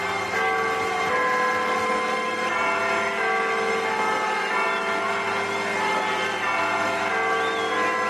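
Church bell chimes ring out over a rock song, their sustained ringing tones layered with steady instrumental chords at a moderate, even level throughout.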